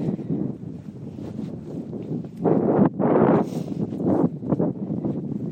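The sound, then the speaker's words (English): Gusty outdoor wind buffets a microphone, making an uneven low rumble that surges and drops. Heavier blasts come in the second half, and no voice is present. “I'll be able to edit this a little later and maybe cut some of the wind out, but get down here out of the wind.”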